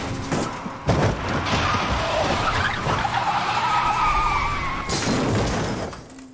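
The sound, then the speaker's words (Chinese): A car skids with screeching tires and crashes into a woman on the road. Loud, continuous rumbling carries high squealing tones through the middle, with sharp impact-like bursts near the start and end. “可就在回家的路上，无意间撞到一个女人，”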